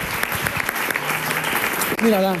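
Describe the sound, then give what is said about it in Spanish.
Audience applause in honor of the speaker's American aunt: dense, steady clapping carries through the whole stretch at a fairly loud level, and a voice rises over it near the end. “un aplauso para mi tía americana, que es la mejor tía del mundo.”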